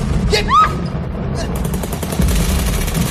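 Recorded gunfire sound effect played back from a recorder during a rehearsal of a battle scene: many rapid sharp cracks run over a constant low rumble.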